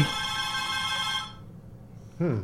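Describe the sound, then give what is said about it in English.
A telephone rings with an incoming call to a call-in line, a bright, steady electronic ring that sounds alone and then cuts off. “Well, it's not blinking, but it's ringing. We got a caller here.”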